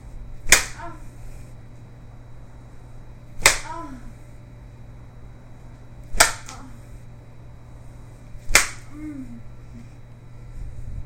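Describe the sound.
A red spanking implement lands four sharp, thuddy slaps, evenly spaced a few seconds apart. Each strike is loud and brief over a faint, steady background hum.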